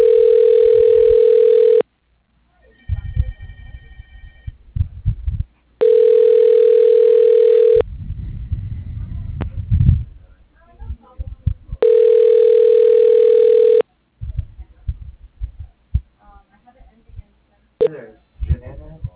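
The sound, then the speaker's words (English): A steady telephone dial tone on the line of a plumbing company sounds three times, each a long unbroken hum, with irregular bursts of clicks, noise and faint short tones from dialing between them. “Dialing.”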